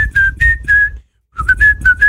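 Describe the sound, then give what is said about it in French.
A person whistles two short melodic phrases of quick, bright notes separated by a brief silent gap, fairly loud over a low background rumble. “C'est la façon dont tu mets la bouche qui marche mieux, en fait. Siffler.”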